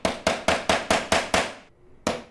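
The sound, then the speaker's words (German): A craftsman in Cuba carefully hammers nails into a wooden frame. Sharp, bright strikes come in a quick, even run, followed by a brief pause and then one more blow. “klopft vorsichtig Nägel in einen Holzrahmen.”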